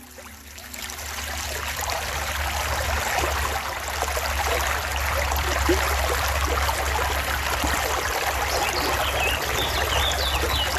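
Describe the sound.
Flowing water from a well-filled brook or stream makes a steady, continuous rushing and trickling wash that stays even in level throughout, with a low, constant rumble underneath.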